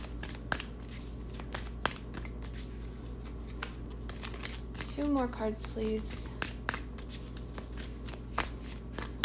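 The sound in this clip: Tarot cards are drawn from a deck, making scattered crisp papery snaps and slides, with a brief voice heard midway.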